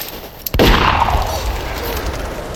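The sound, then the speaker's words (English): A single gunshot from a sheriff's gun, fired outdoors in the snow, cracks out loud and sharp after a quiet, low stretch of ambience. A long, noisy roar follows and lasts to the end. “He shot her. Without even turning to look at her.”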